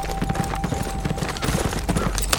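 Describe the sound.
A horse gallops, its hooves striking the ground in a quick, steady rhythm of many sharp thuds that run through the whole stretch with no voices.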